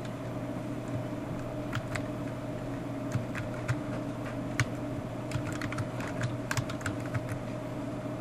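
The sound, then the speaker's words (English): Someone types a name on a computer keyboard: many light, irregular key clicks, faint and scattered over a steady low hum. “so if I come over here and type in a name,”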